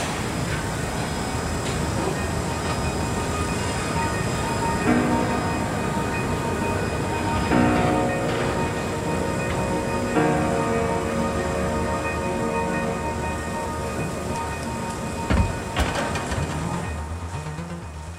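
Continuous rumble of a diesel train rolling on rails, steady and loud throughout, with a few heavier bumps and clanks rising briefly out of the even rolling noise.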